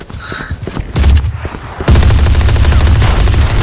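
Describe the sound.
Gunfire in a shooter video game: loud rapid automatic bursts, a short lull, then a dense continuous barrage of shots.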